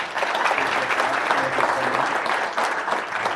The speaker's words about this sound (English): Welcome to the University of Texas. Y'all give Chris Singleton a hand.